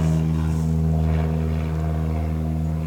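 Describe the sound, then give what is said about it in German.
An airplane flying overhead, heard as a loud, constant low droning engine hum with strong steady tones that barely change, fading only slightly by the end. “Oh, da kommt schon wieder ein Flugzeug. Kann auch sein, dass es das gleiche ist. Aber es fliegt in die gleiche Richtung. Also vielleicht ist es auch eine Runde geflogen.”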